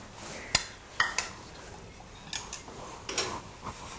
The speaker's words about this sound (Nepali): यो तयार भएको भ्यान्टालाई एकछिन यसरी चलाएर राखिदिउँ।